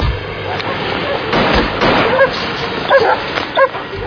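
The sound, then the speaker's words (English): Royal Air Force police dogs bark on an aerodrome: a few short barks and yips over a dense, rumbling background noise, with two sharper barks near the end. “These were all on the aerodrome, these dogs. They all belonged to the Royal Air Force police.”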